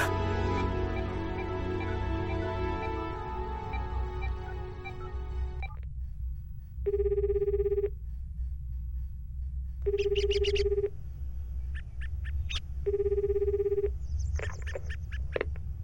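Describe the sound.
A mobile phone rings during a call, its ringtone sounding in three separate bursts of tone over a low, steady background, after a sustained tonal drone at the start.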